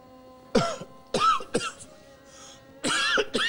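Coughing after smoking a strawberry cough cannabis spliff: a few short, rough, voiced coughs come in uneven bursts with brief gaps, fairly loud and with no talk.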